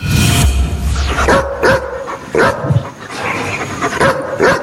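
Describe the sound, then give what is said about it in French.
A dog barks a few times in short, sharp bursts, with some higher yips and a whimpering edge between them, the barks standing out loudly over a steady low background with no talk. “je dirais quand même un aboiement de chien. Bah oui, c'est un chien, bravo.”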